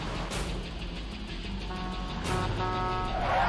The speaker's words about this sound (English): Wait, is that a side loader? Garbage truck or.